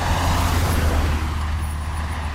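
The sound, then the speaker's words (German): Trucks and cars passing close by on the L37, a road with no bike path, heard as a loud, continuous traffic roar with a heavy low rumble, steady throughout. “LKWs und Autos, die einem den Hintern küssen, weil sie so dicht an einem vorbeifahren.”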